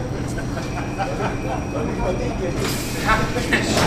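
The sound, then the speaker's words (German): A train departs from platform 9 at Hannover's main station during a delay. A steady rumble and hiss run throughout and grow brighter and louder in the second half, with indistinct voices mixed in. “an Gleis 9, bitte steigen Sie ein. Vorsicht an die Führung. Ihr Zug wird jetzt fahren.”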